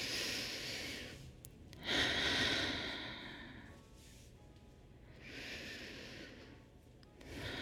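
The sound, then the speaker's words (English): Deep breaths are drawn in, a few long, airy, slow inhalations separated by quieter pauses. They are soft and unhurried, with no talk. “I'm going to take a big breath in. Take another big breath in.”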